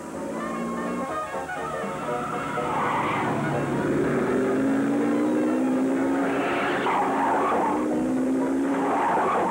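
Car accelerating at full speed during a chase, its engine straining upward in pitch while tires squeal in repeated bright bursts over a loud, continuous roar.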